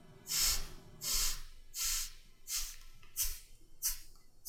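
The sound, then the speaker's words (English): Breath pushed out through the right nostril in a breathing exercise: a series of short, soft, hissy nasal puffs at a steady rhythm, faint and with no other sound. “Now you switch fingers, switch nostrils, and you breathe out to the count of eight on the right nostril.”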